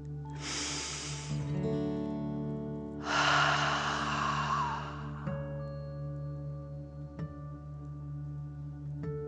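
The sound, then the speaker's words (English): A deep breath is drawn in through the nose and let out during a guided energy-breathing exercise. A long airy inhale is followed by a fuller exhale over steady, soft sustained musical tones. “let's take another deep dragon breath. Fill up your chest and belly in and out.”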